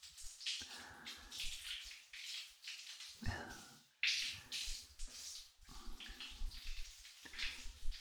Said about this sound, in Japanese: よしよし、一回流しちゃおうか。